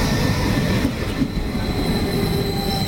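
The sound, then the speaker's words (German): A regional RE15 train pulls into a station with a loud, steady rumble of wheels on rails and a thin metallic squeal running through it. No voices are heard. “RE15 von Meppen, weiter als RE15 nach Meppen über eine Abfahrt 9:05. Vorsicht bei der Einfahrt.”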